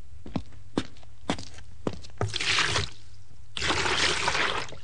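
A bucket of water is poured out in two rushing splashes, each lasting under a second, preceded by a few sharp, isolated thuds like footsteps or knocks. No talking.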